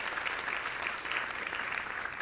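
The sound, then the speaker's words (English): Audience applause at a church service held across several campuses: steady, dense clapping from many hands at an even level, with no voices over it. “Could you put your hands together and join me in welcoming everyone here today?”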